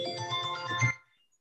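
A mobile phone ringtone goes off at a committee meeting. A bright, melodic electronic tune plays loudly for about a second, then cuts off abruptly into silence.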